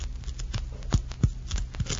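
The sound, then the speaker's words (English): Cork and rubber being carefully cut away in delicate work, heard as a few soft scraping, tearing strokes spaced unevenly over a low, steady background hum. “It's delicate work. Cutting away the cork and the rubber.”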